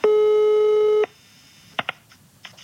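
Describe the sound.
Telephone ringing tone while placing a call: a single steady buzzing tone lasting about a second, followed by near silence with a few soft clicks.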